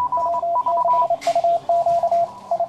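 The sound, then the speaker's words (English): Amateur radio Morse code plays as a steady high beep, keyed on and off in short dots and longer dashes in an irregular rhythm. A brief hiss of noise cuts in partway through. “What you're hearing is a dead language, at least for most official uses. It's the Morse code, a binary digital system that dates back to the mid-19th century.”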